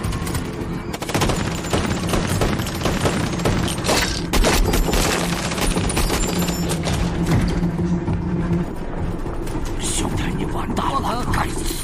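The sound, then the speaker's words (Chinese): Gunfire from a sniper firefight: many sharp, loud cracks and bursts packed densely through the whole clip with a rumbling low end, while voices talk over the shooting. “是谁在开枪？”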